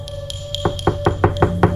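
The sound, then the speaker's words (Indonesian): Knocking on an apartment door: a few light taps, then six firm knocks in a steady, quick rhythm. “Dan tiba-tiba terdengar suara ketukan di pintu apartemenku.”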